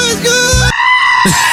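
A goat bleating: a loud, wavering, strongly harmonic cry that fills the whole moment and shifts in pitch partway through.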